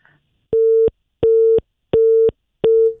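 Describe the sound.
A telephone busy signal after a dropped phone call: four evenly spaced, identical beeps of a steady mid-pitched tone, loud and clean with silence between them.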